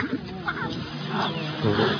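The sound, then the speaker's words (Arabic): A father animal gives a low, rumbling warning growl at its young, which has been playfully pulling its hair, swelling in a few throaty surges under a voice. “الاب بيقول له، بيعمل له همهمات زئير معين، ابعد دلوقتي.”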